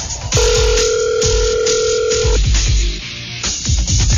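An outgoing telephone call being placed: a steady two-pitched line tone holds for about two seconds, then breaks into shorter tone fragments. Low rhythmic thumps run underneath throughout.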